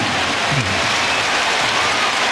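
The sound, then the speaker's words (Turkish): Turkish national football team supporters applaud at a match against Belgium. The clapping and crowd noise form a dense, even wash across the whole clip. “Milli takımımızı destekleyen taraftarlarımızdan da alkış alıyor Ferdi'nin çabası.”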